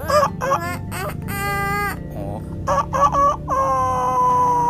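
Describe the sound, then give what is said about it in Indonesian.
A voice imitates a chicken with a series of squawky, nasal clucks and stretched crowing calls. The calls come in short bursts with a few brief gaps and one longer held call near the end. “Gimana suara ayam teh cina?”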